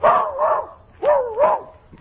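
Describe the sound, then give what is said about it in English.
A small dog barking: four short, mid-pitched barks in two quick pairs with a brief pause between the pairs, loud and clear over a quiet background. “Nice little doggy, what a do with the dog.”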